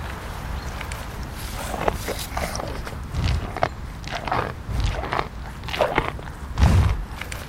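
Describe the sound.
A European bison with filed-down horns crunches through carrots and beets, a series of crisp, irregular bites and chews, loud and close.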